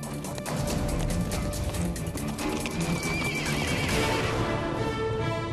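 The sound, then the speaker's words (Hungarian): A horse whinnies over continuous clip-clopping hooves, linked to the Hungarian National Gallop horse race at Heroes' Square in Budapest. The loud neigh stands out above dense hoofbeats and steady background sound. “Nemzeti vágta. A lovas hagyományok, illetve a magyar városok és falvak ünnepe a budapesti Hősök terén.”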